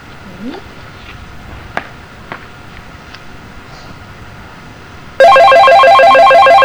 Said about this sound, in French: Allez, on recommence là parce qu'on a été interrompu par le téléphone.